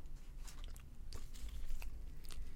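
Biting into and chewing a fast food burger, with soft, faint crunchy bites and moist mastication sounds repeating steadily throughout.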